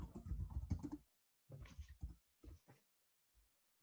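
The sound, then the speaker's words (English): Typing on a computer keyboard, faint and close: quick clusters of clicking keystrokes come in a few short bursts separated by brief pauses, with no talk over them. “Oh, page one of Google. I typed in the wrong thing.”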